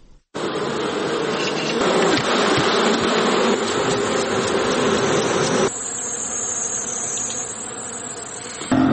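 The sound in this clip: Honeybees buzz densely and continuously at a bee farm in Helmand, a loud, steady swarm drone with no pauses that shifts abruptly in tone partway through.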